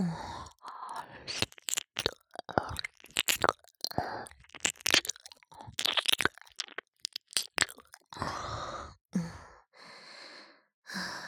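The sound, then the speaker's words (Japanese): Close-up ASMR ear cleaning by licking with the tongue and extra saliva: many short, wet, uneven mouth and licking bursts mixed with soft breaths and sighs. “こちらの耳の方が何かいっぱい溜まっています。しっかり舌でお掃除させていただきます。”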